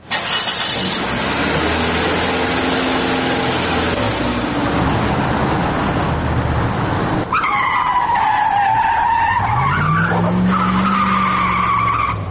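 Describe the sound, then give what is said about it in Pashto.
A car speeds hard with its tires skidding. A loud, rough engine roar gives way to sustained high-pitched tire squeals that waver and bend in pitch, with the engine continuing underneath. “استاد موټر لږ قرار چلاوه ولې دومره بیړه لرې”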